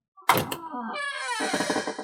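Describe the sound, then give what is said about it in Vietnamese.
Wooden door opening into a simply furnished room: a short thump, then a sustained, wavering creak lasting over a second, moderately loud with no voices. “Âm thanh mở cửa gỗ vang lên”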